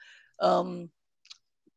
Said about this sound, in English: So when you click on the 015 there,